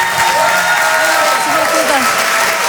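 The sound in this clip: A live comedy audience breaks into dense, continuous applause with whoops and cheers as a comedian is welcomed on stage, loud and sustained for the whole stretch.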